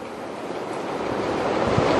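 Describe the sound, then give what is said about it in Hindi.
Pacific Ocean waves roar as a steady, broad wash that swells slightly louder over two seconds, with no voices. “वो ही प्रशांत महासागर है, महासमंदर।”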